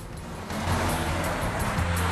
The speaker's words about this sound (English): Now the limo's cruising along the highway.